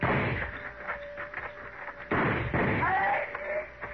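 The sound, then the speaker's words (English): Gunfire in a radio western drama shootout: a few sharp, heavy shots break over a steady background, with men's voices talking between them. “All right, let's move in and keep firing.”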